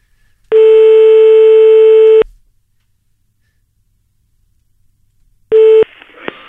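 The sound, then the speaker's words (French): A telephone line plays its unassigned-number tone: one long, steady electronic tone of nearly two seconds, then a pause, then a second short burst of the same tone followed by faint noise. “Le numéro que vous demandez n'est pas attribué, ça commence bien”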